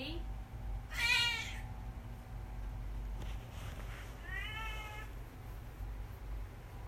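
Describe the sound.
A cat yowls in two drawn-out, wavering meows, the first near the start and the second later. Both are loud and harmonic and sit over a steady low background hum, with no voices heard.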